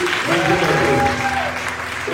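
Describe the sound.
Church audience applauding during a service: dense, steady clapping that fills the whole clip, with sustained tones and some voice-like sound underneath.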